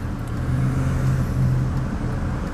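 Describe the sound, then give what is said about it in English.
Morning traffic with school buses driving by, a low, steady engine rumble and drone that swells slightly midway and eases toward the end. “seeing the school buses driving by, a lot of morning commuters held up by all these high school”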